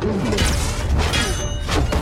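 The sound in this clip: Heavy fists pound on the translucent doors of a spaceship, a few hard thuds and bangs striking over a continuous dense background of sound.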